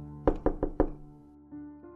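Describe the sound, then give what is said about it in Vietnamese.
Urgent knocking on a house door: four quick, heavy knocks in a rapid run, then a low, sustained tone rises and continues on its own. “Bên ngoài tiếng gõ cửa lại vang lên dồn dập”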